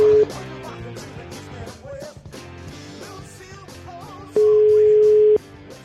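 A telephone ringing tone plays while a call is placed: a steady mid-pitched tone, with the end of one tone at the start and one full tone about a second long later, heard over music.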